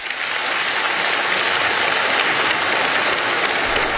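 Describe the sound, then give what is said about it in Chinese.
Warm applause from villagers gathered in a village Communist Party branch meeting room in Liangjiahe, marking the opening of the 19th National Party Congress; dense, loud, unbroken clapping throughout. “北京人民大会堂的掌声不断，梁家河村党支部会议室同样回响着热烈的掌声。”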